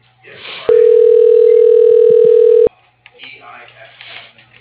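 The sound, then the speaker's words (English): Telephone ringback tone on a line while a call is transferred to an operator: one steady, loud two-second tone, with muffled phone-line voices before and after. “Please stay on the line while your call is transferred to the operator.”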